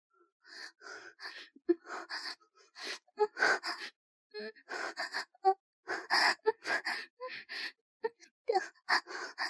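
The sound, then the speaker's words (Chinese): A woman breathes rapidly and heavily in a dense run of quick, gasping breaths that stay quiet throughout. “她的呼吸还是那样的急促。”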